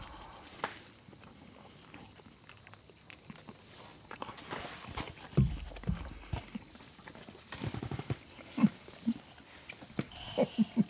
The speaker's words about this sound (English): Let's see how the pizza tastes, first of all, if it tastes like a regular frozen.